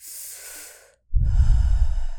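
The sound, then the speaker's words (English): Breathing, heard alone: a soft, airy breath fades out, a short silence follows, then a heavier, rough, rushing breath is pushed out more loudly. “Breathe on it again.”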